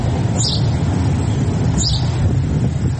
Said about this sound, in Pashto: د مرغۍ چیغه په خود کړ